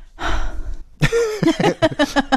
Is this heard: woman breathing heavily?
yes

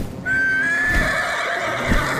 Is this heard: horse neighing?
yes

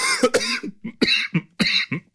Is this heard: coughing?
yes

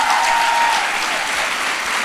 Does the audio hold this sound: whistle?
no

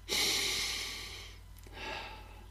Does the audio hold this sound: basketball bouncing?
no

